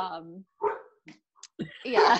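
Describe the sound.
A dog barks in a few loud, separate bursts with short silent gaps between them. The last burst is the longest and strongest.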